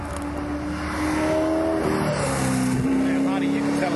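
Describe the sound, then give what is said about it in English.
A Porsche race car engine lifts off the throttle during a motor race. A loud, sustained roar carries harmonic tones that step down in pitch around the middle, over constant wind-like noise. “Off the throttle. It's a Porsche, by the way.”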